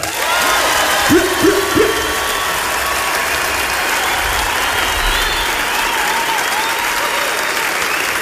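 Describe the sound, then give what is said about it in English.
Audience applause for the Auckland Philharmonia orchestra, a dense, steady roar of clapping that stays loud and even for the whole stretch. “So, can you please put your hands and hearts together and make some noise for the Auckland Philharmonia?”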